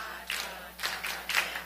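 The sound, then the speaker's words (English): Sharp hand claps from a church audience, a few distinct bursts at uneven spacing, fairly faint and bright, with quiet pauses between them. “Okay, we're going to come right back to why we're clapping in just a second.”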